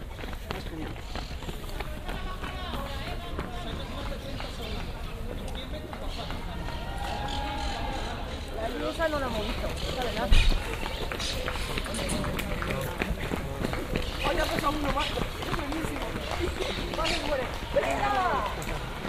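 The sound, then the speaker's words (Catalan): Runners' footsteps at the Sant Cugat half marathon: a steady, dense patter of many feet on the road that continues throughout, mixed with the voices of people talking and a general crowd murmur. “podem escoltar la mitja de marató de Sant Cugat.”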